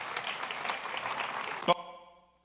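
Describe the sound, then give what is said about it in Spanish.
Audience clapping for a seminary student called up before the crowd, a busy patter of hands that ends in a sharp hit followed by a ringing tone fading to silence. “Venga, un aplauso para el seminarista flaco.”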